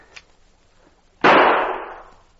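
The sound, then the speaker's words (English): A single gunshot from a gun fired at a log target during shooting practice, a sharp loud report followed by a long, slowly fading tail, preceded by a faint click. “Well, you didn't allow for the kick of the gun. I'll try again.”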